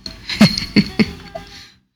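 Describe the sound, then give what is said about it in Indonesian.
Coughing from a man: three sharp, loud coughs in quick succession, each a short harsh burst, followed by a brief softer exhale before silence. “Batuk malah. Oh, minum dulu Abang.”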